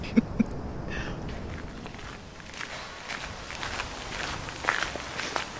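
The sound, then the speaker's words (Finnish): Footsteps of brisk walking form a continuous run of muted steps against a steady background hiss, with a few sharper footfalls standing out. “tällaista sitten liikutaan ja kävellään reippaasti nyt”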